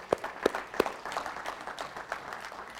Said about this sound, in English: So hallelujah. Give God a hand.